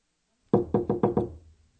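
Knocking on a room door: five firm knocks in quick, fairly even succession, each sharp and loud, with the sound dying away after the last and no talk.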